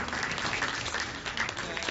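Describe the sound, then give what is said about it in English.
An audience applauds at a storytelling gathering, with many hands clapping in a steady, dense patter that stays at an even level throughout. “please give a round of applause for Emma and Kelsey”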